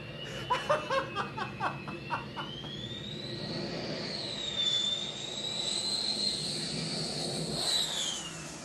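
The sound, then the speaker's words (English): Military jet aircraft fly-past, heard as a faint, sustained high whining roar that swells and lingers, preceded by a few short pulsing bursts. “That was the fly pass from the Blue Angels morning.”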